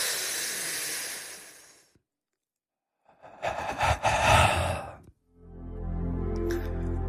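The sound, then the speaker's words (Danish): A deep breath is drawn in as a soft, breathy rush for about two seconds. After a second of silence comes a louder, rougher breath, then a low, steady humming tone. “Dyb indånding.”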